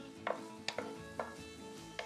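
Finely chopped onion and a little chopped garlic cook in a frying pan with a faint, steady sizzle. A few soft stirring scrapes or taps sound at irregular moments.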